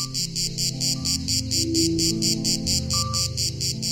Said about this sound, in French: dans le sud du pays, celle que l'on connaît le plus, c'est elle, la cicada orni, pour utiliser son nom latin, appelée aussi cigale grise.